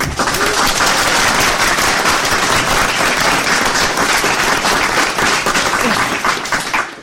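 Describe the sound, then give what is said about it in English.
A studio audience at a live show applauds with loud, dense clapping that holds steady for about seven seconds and then tapers off at the very end. “where for the second time in history, forming a large inhomogeneity of Jodcast listeners, we have a studio audience. Yay!”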